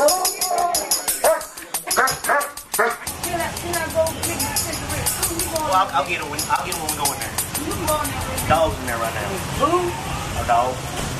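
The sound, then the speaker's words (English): A police drug-sniffing dog barks in a rapid, loud burst at the start, then gives quieter yips and whines while people talk over it. “If you just send a dog in there, it's going to save us a lot of time tearing your house up.”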